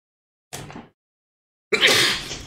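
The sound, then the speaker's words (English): A person sneezes during a tabletop role-playing game session. A short, breathy intake comes first, then a pause, then a loud, noisy burst that trails off. “sorry, I could feel that sneeze coming.”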